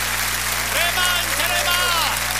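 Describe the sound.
Church audience applauding during worship: a dense, steady wash of clapping runs throughout, with a few shouted exclamations rising above it and a low electrical hum underneath.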